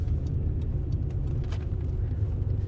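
Steady low rumble of a car driving along a road, constant and fairly loud road and engine noise with no distinct events and no talking.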